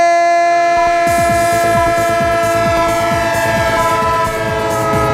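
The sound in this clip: A steady train horn sounds loudly over the rhythmic clatter of a rolling train, whose wheels click in many quick repeating beats throughout, with no voices.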